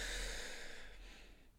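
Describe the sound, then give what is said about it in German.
A deep inhalation during a Wim Hof breathing exercise: one long, airy breath drawn in through the nose or mouth. It is soft and faint, and it tapers off near the end. “Tief einatmen.”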